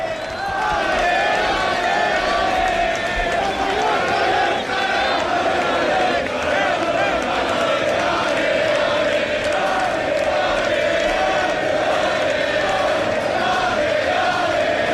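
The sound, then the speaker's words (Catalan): A crowd of about 1,500 Real Mallorca football fans greets the team bus as it stops on Camí dels Reis, filling the whole stretch with a dense, unbroken roar of shouting. “Són 1.500 persones en el moment que atura aquí en els Camí dels Reis el bus i començaran a baixar els protagonistes.”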